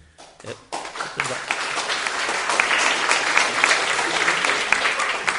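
Audience applause at a poetry reading: after a brief, sparse start, the clapping swells within a second into dense, steady applause that holds evenly to the end.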